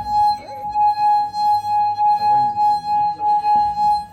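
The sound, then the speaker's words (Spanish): Glass harp played by a finger rubbing a glass rim, a steady, pure ringing tone that holds one pitch throughout, with faint low sounds underneath. “me he traído un arpa de cristal. Esta.”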